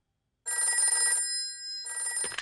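A telephone bell rings during a call: two bursts of bright trilling ring separated by a short gap, loud and alone with no talk.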